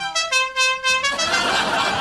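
Four short, bright car horn honks from a pickup truck in quick, even succession, followed by a steady broad rush of noise.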